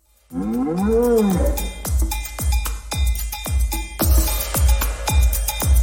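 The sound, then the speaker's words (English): Bantha creature calls from Star Wars, deep and cattle-like: an opening drawn-out moan that rises and falls in pitch, followed by many short, sharp bellows with quickly falling pitch. “as promised, let's close things out with a little uh, bantha music. I like bantha.”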